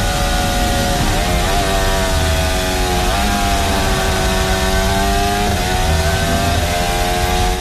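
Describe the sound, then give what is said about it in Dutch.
Onboard racing-car engine downshifting hard through the Maggots and Becketts corners. A loud, high, whining note dips and steps a few times over a steady roar, with no voices. “heel opvallend wat je daar eigenlijk hoort bij Lando Norris aan boord. Dat hij heel erg hard aan het terugschakelen is in Maggots & Beckett's.”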